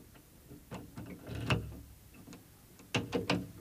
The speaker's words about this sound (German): Jetzt den Schlüssel. Hier.